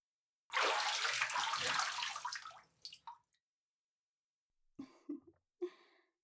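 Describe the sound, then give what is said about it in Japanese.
Bath water poured over someone's back to rinse it, a loud, rushing splash lasting about two seconds that tails off into a few brief, fainter trickles and drips. “お湯加減はいかがでございますか？お体が温まりましたら、お背中をお流しいたしますので、どうぞこちらへ。”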